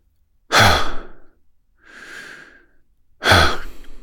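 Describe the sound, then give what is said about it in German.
Hawaiian "ha" breathing: two strong, breathy exhalations voiced as "ha" with a softer, quieter breath in between, each lasting under a second, heard alone without speech. “jetzt kommen wir zum hawaiianischen Haaratem.”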